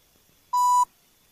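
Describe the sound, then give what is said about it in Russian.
A single short electronic beep on a telephone line disconnecting after a network connection error: a clean, steady mid-pitched tone lasting about a third of a second, alone against near silence. “Ошибка в подключении сети. О, что-то новое. Разъединение.”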